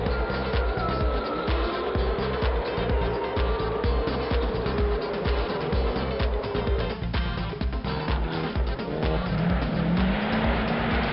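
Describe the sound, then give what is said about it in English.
Loud, continuous engine roar of V8 Supercars racing at the Sydney Homebush Street Race, with tyre squeal at times and the snarl of several cars overlapping without a break. “This week on Inside Motorsport, we look back at all the V8 supercar action from Sydney.”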